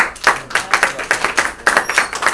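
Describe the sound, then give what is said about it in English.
A small group claps for a girl who has just drummed in a drumming class: brisk, uneven handclaps lasting about two seconds. “Good job. Can we clap for her,”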